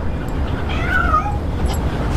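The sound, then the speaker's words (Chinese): A cat meows in one drawn-out, wavering cry that rises over steady low background noise, with no talking. “谁虐猫呢？ 不会吧？”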